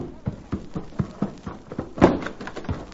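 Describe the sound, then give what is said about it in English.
Hoofbeats of a pony spurred into a gallop while its rider rounds up cattle: a quick, steady run of many sharp, evenly spaced thuds at moderate loudness, with one heavier strike near the end. “suddenly saw something which caused him to rake his spurs over his pony's flanks and come racing home.”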